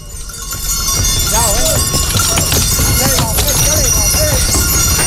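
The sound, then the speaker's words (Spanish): Mules' hooves thud and clop as the animals hop up a ramp onto barges. Many irregular hoof strikes fall one after another over steady, loud background noise. “Eso era efectivamente un leve bote que dan las mulas, ya se suben a las barcazas de los Cristóbal, se oye de fondo alguno de las bestias que no ha subido todo lo suave que”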